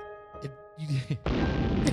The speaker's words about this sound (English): I added a new sound effect. And after re-listening to the episode, I overused that sound effect a little much. Was it the bombs?